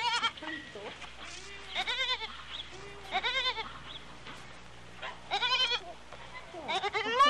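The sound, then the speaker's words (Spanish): Sheep bleating in a flock: several wavering, tremulous bleats come in bursts, some overlapping, over a low steady hum. “Ay, me tiran los borregos. con el rebaño.”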